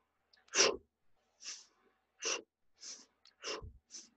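Forceful breaths pushed out with the fists during a dragon breath exercise: about six sharp, breathy bursts of exhalation in an uneven rhythm, separated by brief quiet gaps.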